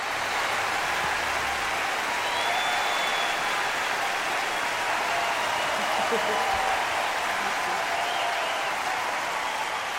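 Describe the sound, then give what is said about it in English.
An audience on its feet gives a standing ovation, a dense, sustained wash of applause that stays steady and loud from start to finish. “The audience gives her a standing ovation.”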